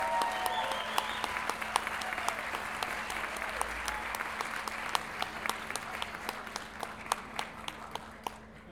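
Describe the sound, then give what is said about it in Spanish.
Audience applause welcomes a performer at a gathering of payadores, improvised folk verse singers, in Lo Barnechea. It forms a steady wash of clapping with sharper individual claps standing out above a low, constant hum. “Recibamos con un fuerte aplauso a Alfonso Rubio Morales, que nos visita desde Pirque.”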